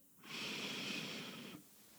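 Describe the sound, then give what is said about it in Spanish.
A deep breath in during guided breathing: one smooth, airy inhalation lasting just over a second, alone and moderately loud, with quiet before and after. “Van a inhalar desde el centro de su pecho.”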